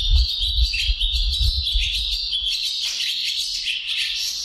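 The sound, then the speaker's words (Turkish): Collared pratincoles recorded in Bursa give a dense run of high, rapid chirping calls that continue without a break, over a low rumble. “Kırkırlangıcını Ensar Ertekin Bursa'da kaydettiler.”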